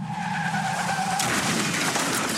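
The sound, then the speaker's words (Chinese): Car tires skidding and squealing in a speeding-crash scene: a steady, strained squeal holds for about a second, then a harsher, broader rush of noise takes over and stays loud to the end, with no voices. “继续直行, 可能就是一场危及生命的车祸。”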